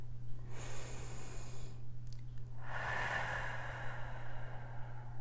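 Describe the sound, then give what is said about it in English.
A slow, deep breath is drawn in and then let out in a long, soft exhale, faint and alone over a steady low hum. “you take a deep breath in. Let it out.”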